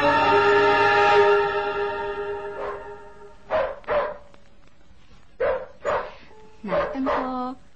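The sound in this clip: A dog barks outside a suburban house in six sharp barks grouped in three quick pairs, following a long, steady droning horn-like tone at the start.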